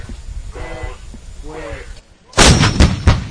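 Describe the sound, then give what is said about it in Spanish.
An artillery piece fires Blitz ammunition toward a target 17 kilometres away at a NATO exercise on the San Gregorio training range near Zaragoza. A voice speaks briefly, then one loud, sharp boom rolls on with a rumbling tail. “Van a ver, pues simplemente tirar con munición Blitz a 17 kilómetros.”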